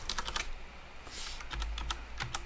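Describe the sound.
Typing on a computer keyboard to enter a company name: faint, quick clusters of key clicks with a short pause mid-way, ending on one sharper, louder tap.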